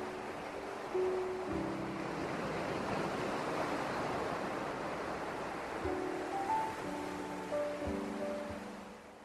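Sea waves wash against sea cliffs in a broad rushing surf that swells and subsides, under soft sustained musical tones that hold steady and shift at the start and end.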